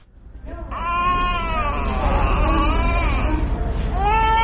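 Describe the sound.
A malnourished infant cries in a small hospital room, a high, wavering wail held for several seconds. A short gasp follows, and then another strained cry begins.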